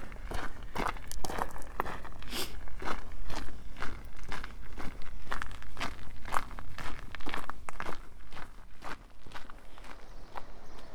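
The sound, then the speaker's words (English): Footsteps walking down toward Lizard Point, a steady run of many crunchy footfalls with an even rhythm and faint low background noise throughout; no one speaks. “Walking down to Lizard Point, and there's a chough right in front of me.”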